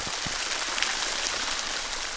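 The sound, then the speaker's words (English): A waterfall of black ink plunges from the ceiling of a huge room into a 5,300-gallon lake in an art installation. It makes a steady, even rush of splattering liquid, like heavy rain, throughout. “There's a waterfall of black ink, and it plunges from the ceiling into this huge room and splatters into a 5,300-gallon lake”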